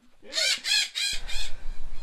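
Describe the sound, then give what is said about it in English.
Parrots squawking in the background: four harsh, rasping calls in quick succession, followed by a stretch of noisy, low rumbling. “You were made to move the parrots out of there, where we can just hear them squawking away in the background”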